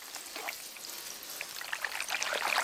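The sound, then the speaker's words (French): Water pours and trickles onto bean sprouts in a continuous soft, hissing splatter that grows slightly louder toward the end. “Juliette, elle, doit arroser les pousses de haricots.”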